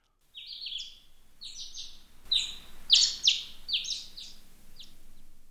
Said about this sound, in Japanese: ああ、鳥の声が聞こえますね。